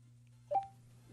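A single short telephone dialing tone sounds as a call is started, faint and clean, over a steady low hum.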